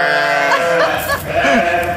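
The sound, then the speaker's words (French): Sheep bleating, with several overlapping, quavering nasal calls that waver in pitch and follow one another closely over about two seconds. “C'est soit des vrais brebis, soit il a les meilleurs potes du monde.”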